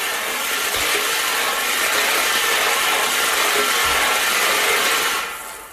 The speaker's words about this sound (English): All right, let's spin those balls.